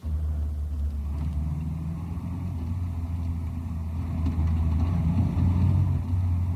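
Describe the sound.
A car engine runs steadily inside a car on a road trip in Mexico, making a constant low rumbling drone with no talk. It swells slightly louder toward the end.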